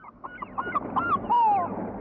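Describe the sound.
A bird calling with goose-like honks: a run of short nasal honks, then a longer, slightly falling honk, fairly faint over a low background rumble.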